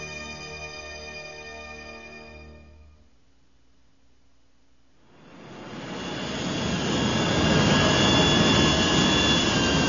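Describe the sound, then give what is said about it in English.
A souped-up freighter spaceship roars off through rain clouds. A humming engine tone fades to near quiet, then a broad jet-like roar swells up and holds loud and steady to the end. “The souped-up freighter tore a hole in the rain-black clouds and was gone.”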